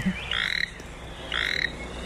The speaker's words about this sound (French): C'est un batracien, c'est une grenouille. Oui. Je pensais illustrer un crapaud, mais je me suis trompée.